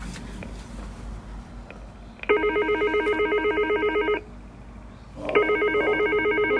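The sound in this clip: Telephone ringing on an outgoing call: two bursts of a buzzy, pulsing ring tone, the second cut off at the end, separated by a quiet gap over faint background noise.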